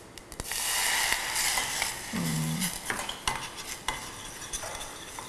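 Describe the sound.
Sauce simmering and being stirred in a pan for squid stir-fried with salted egg, with a little oil added: a steady sizzling hiss broken by irregular scraping and clinking utensil strokes.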